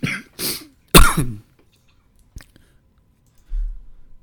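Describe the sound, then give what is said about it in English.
Three harsh, loud coughs in quick succession from a person with COVID, followed by silence and a single faint click. “That was you choking because you just remembered how funny it was. No, it's me just having COVID.”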